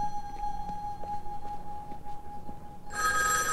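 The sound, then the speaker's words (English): A telephone rings in a phone booth. A steady, thin high hum sits under faint background noise, then a bright, buzzy ring bursts in near the end. The whole clip is fairly quiet. “He quickens his pace toward a phone booth. He glances behind him and trots to the ringing phone.”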